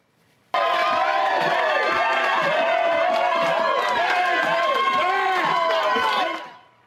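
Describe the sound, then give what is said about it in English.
Crowd cheering erupts at an election victory party in a cafe, a dense, loud roar of shouting and whooping voices that bursts in suddenly and holds steady before tapering off at the end. “And that was the sound of victory tonight in Germantown's Champagne Cafe.”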